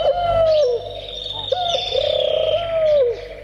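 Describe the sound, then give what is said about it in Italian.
Turtle doves cooing: a few soft, low, rolling coo phrases follow one another, with a faint higher-pitched bird note running alongside. “Le tortore che tubano. Le abbiamo trovate.”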